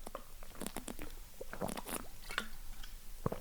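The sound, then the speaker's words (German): Someone sips a drink. Faint wet mouth clicks and small swallowing noises are scattered irregularly over a few seconds, with no talking. “Aber ich trinke mal kurz einen Schluck, bevor wir an die nächsten 10 Fragen gehen.”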